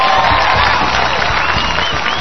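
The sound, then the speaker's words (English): Crowd chanting for La Sombra in the Georgia Dome, a loud, continuous mass of voices and cheering with a faint recurring rhythmic pulse, sustained throughout. “Well, as the chants for La Sombra continue to echo throughout the Georgia Dome, it's time to take a break.”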